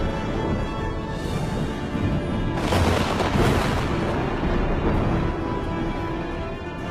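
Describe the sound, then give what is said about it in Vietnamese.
Thunder booms and rumbles during a lightning storm, a dense, continuous roar that swells into a louder burst midway before settling back to a heavy rumble. “Tiếng sấm vang chớp giật, khung cảnh trở nên chói lòa cả mắt. Bên tai của mọi người vang lên tiếng đùng đùng”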